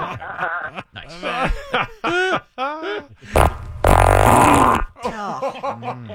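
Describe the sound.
During a guess-whose-gas game, a fart blasts for about a second and a half in the middle as a rough, sputtering burst. People talk and chuckle before and after it.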